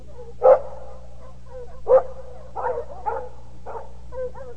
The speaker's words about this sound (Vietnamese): mặc kệ tiếng chó sủa đuổi dồn phía bên kia bờ